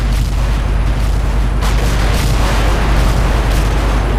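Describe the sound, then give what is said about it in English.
Ship's guns firing in a naval battle, a loud, unbroken roar of heavy gunfire and explosions with no separate shots standing out, steady in level throughout. “Return fire. Give it everything we got.”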